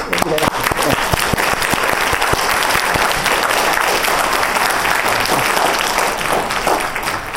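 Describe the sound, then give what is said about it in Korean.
Audience applause at a drug-abuse prevention lecture: dense, steady clapping that stays loud for about seven seconds, with a voice speaking over it. “저 뒤에 앉아 계세요. 우리 박수로”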